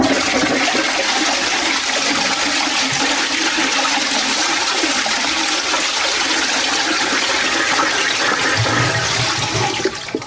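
A toilet flushes with a loud, steady rush of water that holds evenly for about ten seconds and then cuts off at the end.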